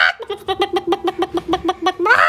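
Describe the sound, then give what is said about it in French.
A human voice imitates a hen, clucking in a quick, even run of many short throaty notes. It ends with a harsher, louder squawk. “Après, j'ai la poule.”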